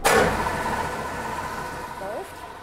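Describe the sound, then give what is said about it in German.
An electric meat grinder is switched on in the kitchen of a zoo exotarium, where meat, fish and vegetables are processed into aspic for the fish. A loud motor whir starts abruptly and then runs steadily, with a voice briefly audible near the end. “Der Fleischwolf kommt zum Einsatz. Schalten wir das Motzgerät hier mal ein.”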